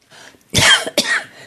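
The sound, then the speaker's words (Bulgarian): Two harsh coughs from a person, loud and separate, the first longer and rougher, the second shorter and sharper, with no talk around them. “Извинявайте, толкова се вдъхнових, че се закашлях.”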